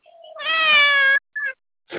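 A house cat meows: one long, loud, high meow, then a short meow and a brief breathy call, with silence between.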